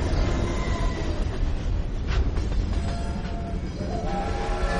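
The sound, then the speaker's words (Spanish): A freight train rolls past with a loud, steady rumble and metallic rattle of wagons that holds at an even level from start to finish, with no voices. “Pasa un tren de mercancías.”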